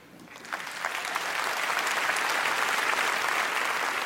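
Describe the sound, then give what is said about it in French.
Standing-ovation applause after a speech swells from light clapping into a dense, steady roar of many hands that holds at full strength to the end. “S'ensuit une standing ovation.”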